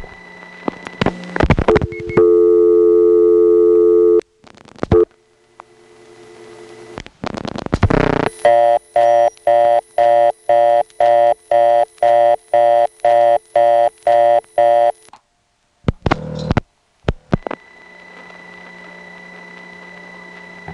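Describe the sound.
Telephone exchange blocking tone after dialing 45 on a switching system: mechanical clicks, a steady electronic tone, more clicking, then a loud tone pulsing rapidly many times before further clicks.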